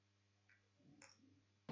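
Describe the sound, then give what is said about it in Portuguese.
A mouse click on a character sheet in a tabletop role-playing game lands as one sharp, loud click at the end, after faint soft ticks over a steady low hum. “Tem que clicar na ficha, né? Não tem jeito.”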